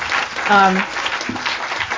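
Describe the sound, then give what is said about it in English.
A conference audience applauds WBIX during a keynote session with a steady wash of clapping. A brief voice sounds over it near the start. “So can we give you just a round of applause for WBIX?”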